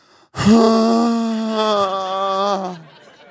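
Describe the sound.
A voice imitates an exaggerated, loud exhale from a hot yoga participant: one sustained, voiced, groan-like breath about two seconds long, held at a steady pitch and tapering off at the end.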